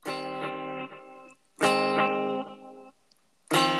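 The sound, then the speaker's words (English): A voice imitates a guitar chord progression with delay and reverb: three sustained, buzzy harmonic chords, each holding for about a second with a fading echo tail, separated by short gaps, the last beginning just before the end. “check out this amazing impression of a chord progression with delay and reverb.”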